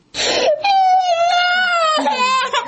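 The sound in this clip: A young child cries in high, wavering wails: a short sob, then a long drawn-out cry and a final shorter wail, loud and alone.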